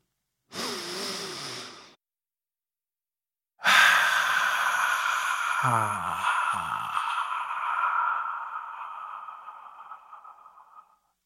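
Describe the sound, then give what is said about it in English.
A single deep inhaled breath lasting about a second and a half, followed after a pause by a long, steady, sustained tone that slowly fades out. “So, if you are ready, let's take that deep breath.”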